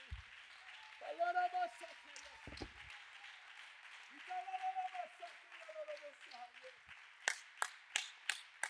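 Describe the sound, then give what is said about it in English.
During a church sermon a preacher talks for most of the stretch, then an audience breaks into a few sharp, evenly spaced hand claps at the very end. “Clap your hands with strength”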